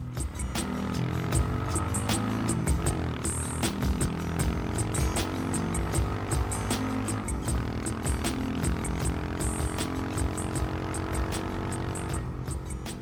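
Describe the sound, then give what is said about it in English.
A small dirt bike engine drones and revs on the Colombian coast as the throttle opens. Its buzzing tone climbs gradually as it accelerates, with steady rattle throughout and no voices. “She points the bike north and opens the throttle.”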